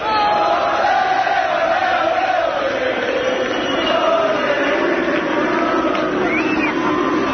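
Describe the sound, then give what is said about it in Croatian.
Republic of Ireland football fans cheering in France, a dense, continuous crowd roar with massed voices chanting and singing together at a steady, loud level throughout. “Poslušajmo kako su Irci navijali u Francuskoj.”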